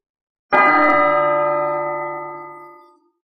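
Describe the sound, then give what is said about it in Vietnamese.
A golden temple bell is struck once, ringing out with a rich, resonant tone that sustains alone and slowly fades away over about two and a half seconds. “Tiếng chuông vàng rung trời từ trong một ngôi chùa trên Tu Di Sơn truyền ra, như một bộ kinh văn lọt vào tai, tuyên truyền giác ngộ làm cho người ta tỉnh táo.”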